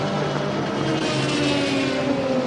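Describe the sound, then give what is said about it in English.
A blue Cadillac race car, number 02, rumbles past on its way into the pit lane during a sports car championship practice session. The engine gives a steady, broad low roar with a faint tone that drifts slightly downward. “This is blue the Cadillac going past you, coming down into the pit there. Will fire up, I think. The 02 is the blue Cadillac. That's a very pretty blue colour. That just rumbled, didn't it?”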